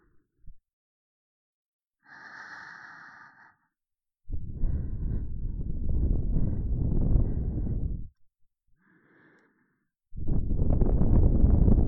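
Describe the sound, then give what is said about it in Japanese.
Breath blown into an ear to finish an ear cleaning: two long, loud, breathy whooshes of air, each preceded by a brief soft vocal sound, with quiet between them. “それでは仕上げに、ふうしてあげよう。”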